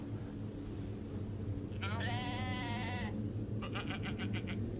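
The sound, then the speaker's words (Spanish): A goat bleats far off while people walk a hillside trail at night. A long wavering bleat comes first, then a shorter stuttering one, both over a steady low rumble. “a lo lejos, poniendo mucha atención, se lograba escuchar el balido de una cabra.”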